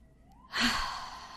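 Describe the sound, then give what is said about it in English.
One deep breath in and out, heard as a single soft, breathy rush of air that starts abruptly partway in and then fades gradually, with no talk. “we are going to breathe in what was in alignment for us this week and exhale everything that was out of alignment for us this week.”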